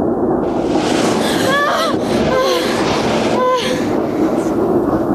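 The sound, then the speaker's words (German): An amusement park ride train, a ghost-train style dark ride, rattles loudly along its tracks in a dense, continuous clatter, with a few short high squealing tones rising above the noise. “Die Bahn zuckelte an Schlossgespenstern vorbei, durchquerte ein Drachenland, in dem Vulkane und Monster um die Wette qualmten, und ratterte schließlich zurück in den Bahnhof.”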